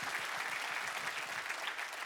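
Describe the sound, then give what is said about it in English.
Audience applause during a faith-themed talk, a thick, continuous patter of many hands clapping at an even, moderately loud level from start to finish. “So here's, yeah, go ahead, clap for that one. That one's worth it.”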